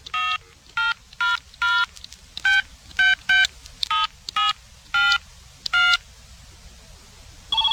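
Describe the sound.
Telephone keypad dialing a number: a long series of short touch-tone beeps at uneven intervals, each a clean, bright electronic tone, with quiet gaps between and no talk.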